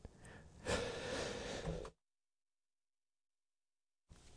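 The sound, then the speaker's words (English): A person nearly chokes on their own breath, giving a sharp, raspy gasp followed by a wheezy, strained breath that lasts over a second before abrupt silence. “Almost choked on my own breath.”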